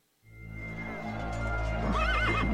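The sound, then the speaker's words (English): A big red stallion neighs, armored in crinet and chamfron under crimson silk with a gilded saddle. A low, rumbling onset swells into a loud, wavering high whinny toward the end. “His big red stallion wore crinet and chamfron.”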